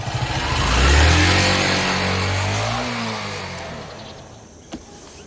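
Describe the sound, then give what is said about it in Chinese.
A motorcycle engine revs as the bike rides off, its low harmonic drone peaking and climbing in pitch around the first second, then gradually fading toward near quiet, with a brief click near the end. “你说魏宝库家有的是车，这小子咋还骑台摩托呢？”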